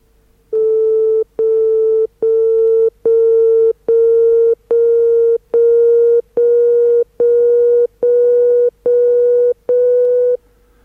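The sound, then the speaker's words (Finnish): Electronic tones step upward in twelfth-tone intervals, twelve steady sustained pitches with short even gaps between them, each only a hair higher than the last. “Tällaiselta kuuluu 12 osa sävelaskea.”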